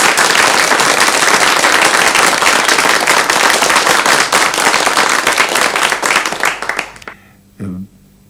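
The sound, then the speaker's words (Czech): Big audience applause: loud, dense clapping that stays thick and steady for about seven seconds, then thins out and dies away quickly, leaving a short, faint sound near the end. “Myslím, aby se diváci nenechali mýlit tím velkým potleskem, to jsou samými příbuzní tady”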